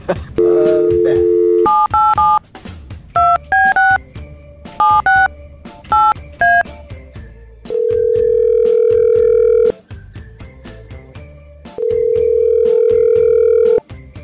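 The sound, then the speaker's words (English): A telephone dial tone is followed by a quick run of many keypad tones as a call is dialled. Two long, steady ringing tones come after, separated by a pause. No one talks. “Okay, let's give Beth a call.”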